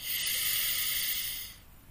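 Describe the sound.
A deep breath is drawn in during a guided breathing exercise, a long, steady, airy hiss that holds for about a second and a half, then fades away.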